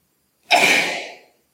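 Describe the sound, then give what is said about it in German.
A single sneeze from a person, one sharp, breathy burst that starts abruptly and fades out in under a second, alone in silence. “Muss ich jetzt nochmal niesen? Ja.”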